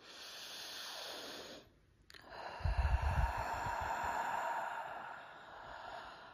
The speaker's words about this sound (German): Tief durch die Nase einatmen und doppelt so lang durch den Mund aus.